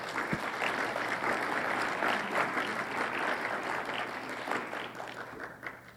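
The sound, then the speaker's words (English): Audience applause welcomes a singer at an event, a dense, sustained wash of clapping that tapers slightly toward the end. “Let's give her a hand and welcome her.”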